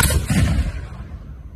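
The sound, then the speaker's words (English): A single heavy boom from an original Civil War cannon fired for the Fourth of July: one loud, sharp blast with deep low rumble that fades gradually over about a second and a half. “An original Civil War cannon that sounds like this.”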